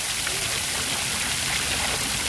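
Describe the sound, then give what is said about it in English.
Water from a big public fountain on a square on Munich's east side, a steady, even rush and splash that stays loud throughout with no breaks. “On a quiet public square on Munich's east side, people are sitting on park benches around a big public fountain, still running despite the water restrictions.”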